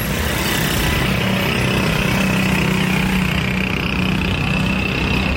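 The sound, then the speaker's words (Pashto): Noisy, faulty auto-rickshaw engines produce a rough, continuous drone that stays steady and loud throughout, with no voices. “هر ډول شور، د رکشو ناکاره आवाजونه،”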